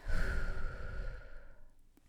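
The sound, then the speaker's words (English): A deep, audible breath drawn during a guided breathing moment: one long, airy rush, loud at first and fading steadily over about two seconds, with no talk. “I actually want to take a moment just to breathe deep in and out, okay? Do it with me. Big breath in and out.”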